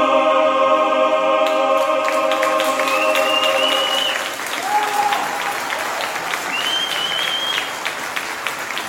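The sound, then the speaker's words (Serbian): A standing audience gives loud, sustained applause to a choir from Australia after its encore. The choir's final held chord fades beneath the clapping at first, and a few high whistles cut through. “Pesma Kalinka propraćena je ovacijama. Hor iz Australije je na bis izveo tamo daleko, a publika je izvođenje pozdravila stojeći.”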